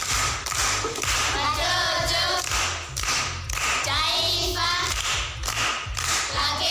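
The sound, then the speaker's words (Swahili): Clapping for a pupil's correct riddle answer at a primary school class session comes in a few loud, uneven bursts of hand claps. Excited voices call out over and between them. “Makofi kwa shangazi.”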